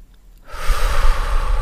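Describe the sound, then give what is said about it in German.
A slow breath drawn in during a breathing exercise: after a brief quiet moment, a steady, airy inhale rises and holds at an even level to the end. “Lege am besten eine Hand auf dein Brustbein. Atme 4 Sekunden ein.”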